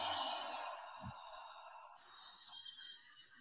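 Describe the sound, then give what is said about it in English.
A deep breath exhaled slowly and steadily, a single long airy rush of breath that fades out gradually. It is soft and quiet, with no talking. “Let's all just take a nice deep breath together and exhaling”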